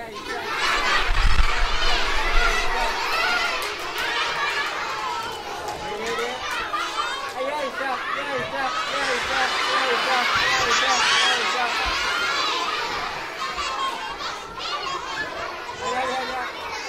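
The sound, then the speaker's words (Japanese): Children shout, squeal and chatter at a clown show during a company's Smile Day event, a lively, continuous crowd of young voices that stays busy and loud throughout, swelling near the middle. “今の音は大橋運輸さんが行っている笑顔の日というイベントで行われたクラウンショーの様子でした。”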